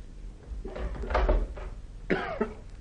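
A window being pushed open in a drama scene, heard as a few scraping bumps and knocks with a short creaky squeal near the end.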